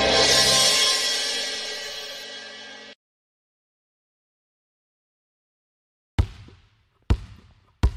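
A basketball bouncing during a shootaround: three sharp, hollow thuds in the last seconds, after a long silence that follows a broad hissing wash fading out.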